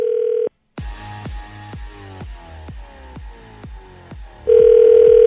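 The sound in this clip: Telephone dialing to call a listener live on radio: a steady dial tone cuts off, then a string of quick descending dialing tones follows, and a ringing tone takes over at the end.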